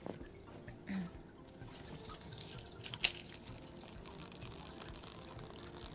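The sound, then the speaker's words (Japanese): A small bell charm sold at a Shinto shrine rings with a bright, high, faint jingle. A sharp strike comes midway, then light tinkling continues through the rest. “神社の鈴みたいな音だね、本当にね。”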